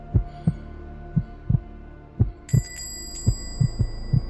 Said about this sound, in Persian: صدای قلبم را که چنان می دوید تا از قفسه سینه‌ام بیرون بزند به خوبی می شنیدم